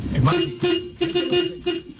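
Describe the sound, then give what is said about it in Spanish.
Car horns honk over and over in a traffic jam. Several short and longer blaring tones follow one another in quick, irregular succession, with voices mixed in. “porque hay unos que comienzan con la pitadera, qué azaradera.”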